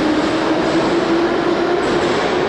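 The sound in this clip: A Tbilisi metro train runs with a loud, steady rumble and a constant whining hum throughout, holding an even level with no break.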